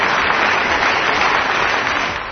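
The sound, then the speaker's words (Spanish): A whole auditorium applauding, a loud, dense, even wash of clapping that eases slightly at the end. “Se levanta el auditorio entero para aplaudir a Ronald. Bravo. Hurra.”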